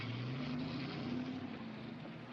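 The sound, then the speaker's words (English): A taxi cab drives off with a faint, steady engine drone and a low hum that holds throughout without clear changes. “The cab drives off.”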